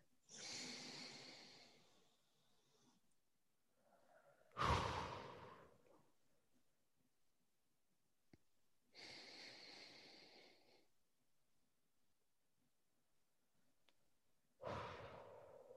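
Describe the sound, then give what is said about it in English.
Slow, deep breathing exercise: a few long inhales and exhales, each a loud, airy whoosh with sigh-like releases, separated by quiet pauses and with no talking. “Is it okay if we do two more together? Two more yes, deep breaths? Let us. Delightful. Let's do it.”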